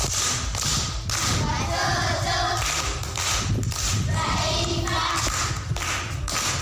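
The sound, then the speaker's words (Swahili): Classmates at a Tanzanian primary school clap for a sixth-grade pupil after her answer. The clapping is uneven and somewhat faint, with hollow thuds and taps in irregular bursts. “Makofi kwa Agi.”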